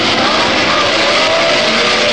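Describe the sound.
Racing cars roar away at the start of a Grand Prix, with Graham Hill's BRM and Jim Clark in the field for an 80-lap race on a 2.65-mile circuit: a loud, dense, continuous blare of many engines with no talking.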